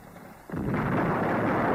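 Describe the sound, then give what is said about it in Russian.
Wartime cannon fire: one sudden deep boom breaks over a faint background and leaves a loud, sustained rumble. “и оттуда ль пушка бьет”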